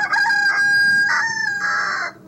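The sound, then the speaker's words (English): A rooster crows in one loud, drawn-out call lasting about two seconds, its bright harmonic tone breaking into several rising and falling segments before cutting off. “So we're awoken by roosters.”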